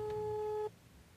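Telephone ringback tone while calling someone: a single steady electronic tone lasting well under a second, then cutting off abruptly to a faint hum.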